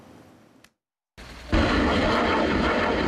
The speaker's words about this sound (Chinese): 这是台湾军方自行研制的雷霆2000火箭弹，在时隔7年后首次在实战区域进行实弹射击。